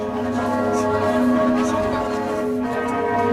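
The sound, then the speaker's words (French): Church bells toll a death knell in France, a solemn ringing from churches across the country, heard as a dense, sustained wash of overlapping metallic tones that hold steady throughout at a fairly loud level. “À 15h, tout à l'heure, toutes les églises de France ont sonné le glas.”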